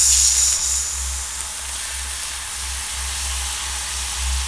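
A huge pink worm sizzling on a scorching hot ball, giving a steady, bright hiss that holds throughout, with a low, throbbing rumble pulsing underneath.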